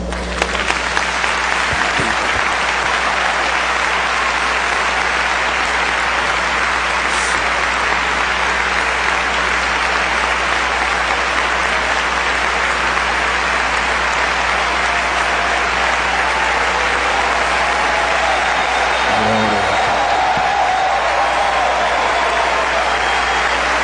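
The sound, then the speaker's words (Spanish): Loud audienceal applause during an evening church worship service: a dense, unbroken roar of many hands clapping that holds at an even level from start to finish. “amado Jesús, recibe este aplauso”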